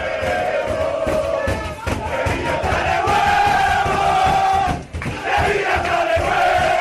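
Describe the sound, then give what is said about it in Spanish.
Sevilla footballers whoop and roar together in the dressing room after winning a derby: a dense, loud, continuous wall of shouting and cheering voices with a brief dip partway through. “Y así suena la alegría del vestuario sevillista.”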